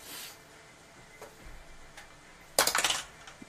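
Physical dice rolled on a table during a tabletop game, a short burst of several hard clattering clicks that stands out loudly from a quiet background, with a few faint taps before it.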